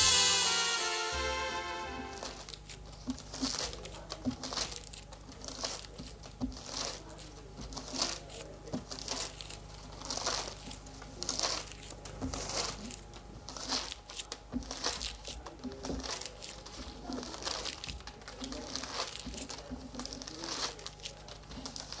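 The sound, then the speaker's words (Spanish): Paper pages being torn from a book and crumpled into balls produce a long, continuous run of crackling and crinkling, with many dense bursts of rustle at moderate loudness and no voices. “Una persona arranca las páginas de un libro y las estruja convirtiéndolas en bolas de papel.”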